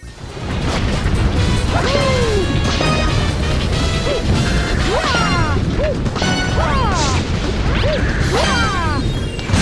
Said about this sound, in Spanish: Y estos sonidos que se producen cuando golpeamos el coco y cuando King Caliente nos lo devuelve